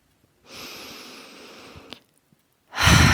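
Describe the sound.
A deep, steady breath in during a guided breathing exercise: a soft, airy inhale lasting about one and a half seconds, then a brief pause and a louder breath near the end.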